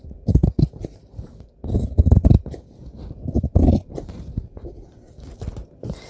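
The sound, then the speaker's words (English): Irregular bursts of crunchy snipping come from cutting around an edge with about an inch left as a margin. The bursts are loud and uneven, with short pauses between them. “Here we go, cutting. And we're cutting. And we're cutting.”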